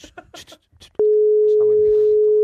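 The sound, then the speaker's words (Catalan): A steady, single-pitch telephone call tone sounds while a live call is placed to a wedding. It starts abruptly after a stretch of talk and holds unbroken to the end, with voices continuing faintly beneath it. “Estem trucant.”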